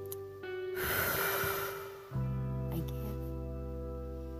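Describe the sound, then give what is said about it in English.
One long, deep inhalation during a guided breathing exercise: a breathy rush lasting under two seconds that then stops, set over a soft sustained musical drone that continues alone afterward. “Let's do one more deep breath.”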